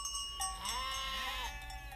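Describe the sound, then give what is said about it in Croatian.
A sheep bleats on a farm where the ewes are lambing. One wavering, nasal cry lasts under a second and stands out over a low steady background. “Bome, u tebe ima ovaca. Ima. Nisu mi se sve još ojanjile.”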